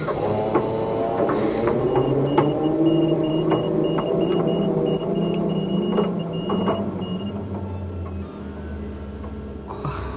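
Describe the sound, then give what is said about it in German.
A small submarine's motor drones steadily on a lake, a loud, continuous low rumble with a mechanical whine and scattered clicks and knocks throughout, with a deeper hum building near the end. “Ich starte den Motor. Ich übernehme die Lenkung. Aha. Und fertig zum Tauchen.”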